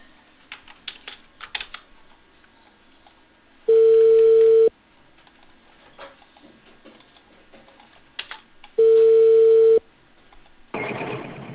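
Ringback tone of an outgoing telephone call, two long steady beeps of even pitch separated by a pause, with light computer keyboard clicks and clatter in between and a short burst of line noise at the end.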